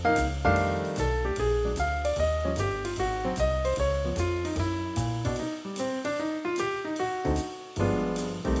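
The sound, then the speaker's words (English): Jazz piano soloing over a rhythm section, each downbeat falling a hair behind the band while the offbeats stay in time; running, swinging lines continue over a steady bass and beat, thinning briefly before the full texture returns. “In another version, the soloist's downbeat started just the tiniest bit behind the rhythm section, but their offbeats were not delayed. That sounds like this.”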